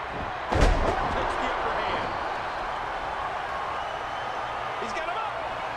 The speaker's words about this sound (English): Oh, and a nice slam. Boom. Really working on him.